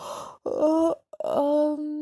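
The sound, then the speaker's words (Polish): A voice performs a drawn-out yawn for a dormouse waking from sleep: two voiced, moaning breaths, the second longer and steadier, with a short pause between them. “Popielica obudziła się, ziewając.”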